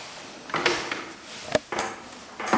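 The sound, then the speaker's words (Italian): A door of an old house is unlocked with a second key and opened: a few sharp metallic clicks and wooden clunks arrive in an irregular sequence, with one crisp click standing out, and no talking. “E aspetta, un'altra chiave. Adesso entriamo.”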